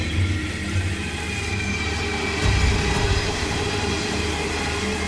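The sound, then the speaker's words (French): Coal freight train on a private mining line through the bush, heading toward the ocean: a continuous heavy rumble of rolling wagons with rattling wheel noise, swelling slightly louder midway, with no voices. “Train de charbon comme celui-ci qui traverse le bush en direction de l'océan.”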